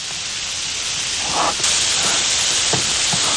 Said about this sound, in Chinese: 那个羊肚丝已经下锅了，帮我去炒两下啊。